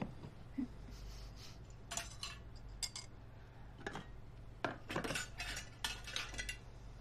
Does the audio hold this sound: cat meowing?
no